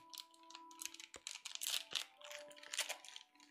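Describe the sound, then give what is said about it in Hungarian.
Crinkling and crunching of a plastic chocolate bag that someone is struggling to open. Irregular crackly rustles run throughout, with a steady faint tone underneath. “Ez a napom egy szar, egy rohadt csokis zacskót nem tudok kinyitni.”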